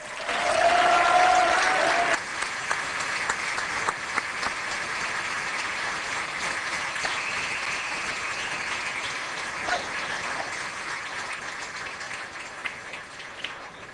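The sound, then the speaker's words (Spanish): Audience applause for a performer introduced at a music show: a louder burst of clapping in the first two seconds, then steady, sustained applause at a lower level through to the end. “le damos un muy fuerte aplauso este a alguien que vino a homenajear”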